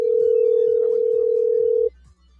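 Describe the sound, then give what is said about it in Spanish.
Ringback tone on an outgoing phone call: one loud, steady, mid-pitched ring held for nearly two seconds before it cuts off abruptly into near quiet. “Vamos a ver si Denis nos contesta.”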